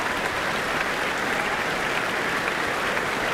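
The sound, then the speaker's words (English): A concert hall audience applauds an orchestra and soloist returning to the stage. The clapping is brief, dense and even, without breaks. “And it's still a hit, as you can hear from the hall. They are back on stage again. We just can't get enough of them.”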